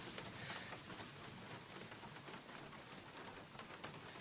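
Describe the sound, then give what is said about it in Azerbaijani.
Sudden rain falls as a soft, even patter and hiss of drops, faint and steady throughout. “Gör necə də yağış başladı birdən-birə.”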